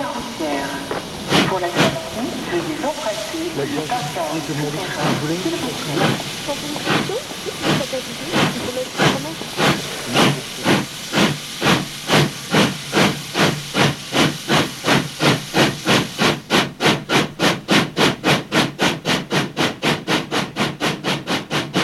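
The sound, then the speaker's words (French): A steam train prepares to leave the station with hissing steam, then chuffs that start slowly and irregularly and quicken into a steady, rapid, loud rhythm. “Le train se prépare à partir.”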